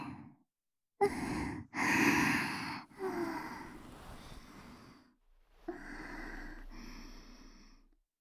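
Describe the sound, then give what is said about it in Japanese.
A person sniffing through fabric, drawing several long, breathy inhalations through the nose, separated by short pauses, fairly quiet and with no talk. “せっかくですから、私も嗅いでみてもいいですか?こうするんです。”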